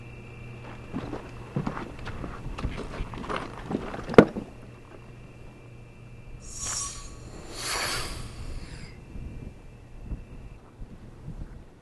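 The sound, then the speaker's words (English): A fifty-year-old air sample flask is opened outdoors in the wind, giving a sharp click followed by two brief airy hissing rushes, heard over rustling and gusting wind noise. “I'm going to hold my breath, walk into the wind, and you'll hear the sound of the flask opening.”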